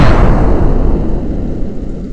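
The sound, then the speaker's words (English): A gun fired in a video game gives a single heavy, booming blast at the start, followed by a deep rumble that trails off over about two seconds. “Good idea, but he needs to draw the gun first. There we go. Right, done it. Fire!”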